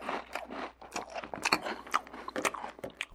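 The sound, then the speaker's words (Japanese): Someone chewing and eating pasta, heard as soft, irregular biting and crunchy mouth sounds with small scraping clicks, quiet throughout with no clear rhythm. “パスタを食べますか？ はい、食べます。”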